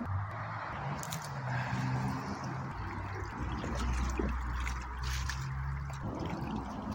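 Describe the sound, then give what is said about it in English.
Spring water running into a cup, a faint, steady trickle and splash that continues evenly throughout. “if I guzzle this coffee right now, I can fill up a cup of water.”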